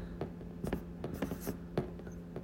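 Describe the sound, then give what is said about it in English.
Pen scratching on paper as a note is written by hand: a few short, dry strokes in irregular bursts, quiet and alone over a faint steady hum. “Let me just write a note to myself.”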